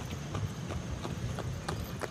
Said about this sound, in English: Every few minutes, a horse and buggy passes by.